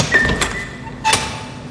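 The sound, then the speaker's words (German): A door opening from an office area into a pasta production hall, heard as a couple of short, soft clunks with a quiet pause between them and no talk over them. “Die ist gleich hier nebenan. Nur durch diese Tür.”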